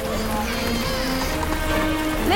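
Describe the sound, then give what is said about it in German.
Pouring rain makes a dense, even hiss that holds steady throughout, with a faint tonal layer underneath. “Auch strömender Regen hält ihn nicht ab.”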